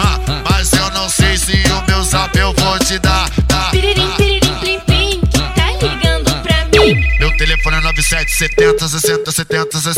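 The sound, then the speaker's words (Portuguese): A phone ringtone plays as a loud, rhythmic electronic melody: quick repeated tonal notes over a pulsing low beat, with one steady high tone held for a couple of seconds near the end. “Tá ligando pra mim? Esse é o telefone do GW.”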